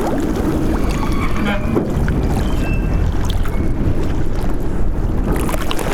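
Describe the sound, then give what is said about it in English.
Waves slosh and crash against a wooden quay on the River Tejo in Lisbon, with the quay creaking as the water lifts it. The rushing water is steady and broad, with wind noise over it. “This is a wooden quay on the River Tejo in Lisbon. You can hear the waves crashing on the quay wall and the quay itself when the water lifts it.”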